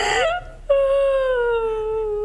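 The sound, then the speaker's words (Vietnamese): A woman crying, a brief broken sob followed by a long, high, wavering wail that slowly sinks in pitch, loud and alone. “chị đừng có khóc như vậy”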